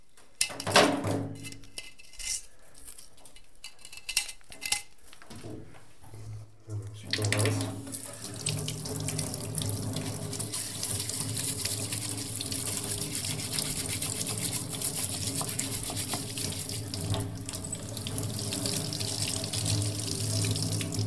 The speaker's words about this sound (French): Et donc là, Jérôme, vous venez de laver la pièce, de la lustrer, et donc là, on attend que ça sèche.